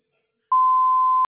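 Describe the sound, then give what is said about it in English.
A single voicemail beep sounds before a message is left: one clean, steady, mid-pitched electronic tone lasting under a second, alone against silence. “Please leave one detailed message after the tone with the best phone contact number, and I will return your phone call within 24 to 48 hours.”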